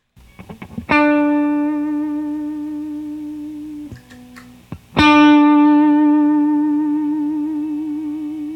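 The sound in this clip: Electric guitar through a Special Cranker gain pedal: two loud, harmonically rich chords ring out and slowly decay. A few quieter plucks and muted string noises come before the first chord and between the two.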